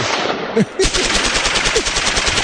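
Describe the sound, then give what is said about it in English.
A machine-gun sound effect: after a brief lead-in, a loud, rapid burst of gunfire starts and rattles on continuously to the end in a fast, even stream of shots. “We have gun sound effects now. Gun sound effects, good.”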